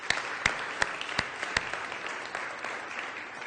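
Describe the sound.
Applause from a jail campus church audience: continuous clapping with a few sharper, louder claps standing out early, then settling into a steady, even wash of hand claps.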